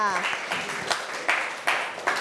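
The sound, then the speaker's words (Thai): A class of students applauds a classmate for a correct quiz answer. A burst of many quick, overlapping claps comes after a brief voice at the start and continues steadily at moderate volume. “เก่งมากปรบมือให้เพื่อนหน่อยค่ะ”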